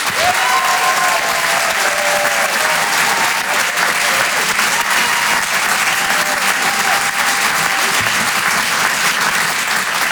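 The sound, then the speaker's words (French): A comedy club audience at the Rire et Chanson Comedy Club applauds and cheers a comedian onto the stage. Loud, continuous clapping carries a few whistles early on. “On peut l'encourager, faites du bruit, s'il vous plaît, pour Wari Nichen.”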